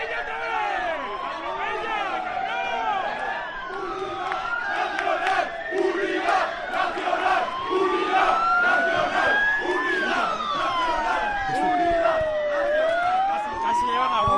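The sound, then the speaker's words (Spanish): Street ambience at a large Madrid intersection: emergency sirens wail in long rising and falling sweeps over a constant din of crowd shouting and talk. “Perdona, deja simplemente el sonido ambiente para que vean cómo suena Madrid en esa zona a esta hora.”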